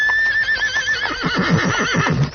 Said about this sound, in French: Un nuage de poussière annonce que les cavaliers approchent, puis un tonnerre de cavalcade envahit le théâtre.